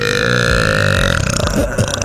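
A loud, long burp rumbles steadily for about a second, then breaks into a rougher, uneven gurgle before it ends.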